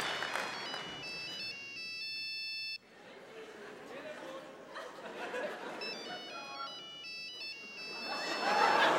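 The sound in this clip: A mobile phone ringing in the audience at a live show. A bright electronic ringtone melody plays in two bursts separated by a pause, with crowd murmur and voices underneath.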